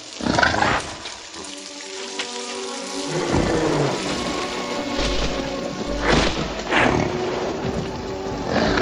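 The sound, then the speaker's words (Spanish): Rain falls in a dense, steady hiss, with deep thunder rumbles and low, growling animal roars rising through it. “Hay que protegerse de la lluvia.”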